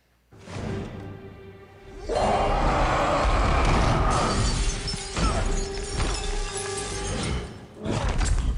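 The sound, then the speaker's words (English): Crashing and shattering of things being smashed in a film scene. A quieter stretch opens it, then a loud, dense, sustained barrage of breaking noise runs to the end over a low tonal hum. “if you got him angry, he would explode and he would smash things and smash people, kind of like this.”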